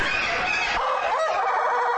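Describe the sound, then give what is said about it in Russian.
Rooster crowing, an unusual-looking bird apparently from Latin America, kept in a cage. One long, hoarse, loud crow rings out alone, with no talk. “Для того, чтобы записать голос одного по европейским меркам странно выглядевшего петуха, кажется, из Латинской Америки, пришлось стоять возле клетки минут 10.”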